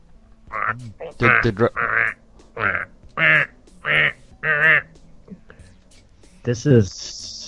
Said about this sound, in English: And it's very ducky, duck heavy. A lot of quacking.